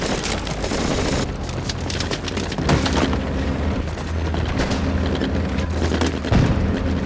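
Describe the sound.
Soldiers keep firing in battle, making a dense, continuous rattle of gunshots broken by heavier booms, loud throughout.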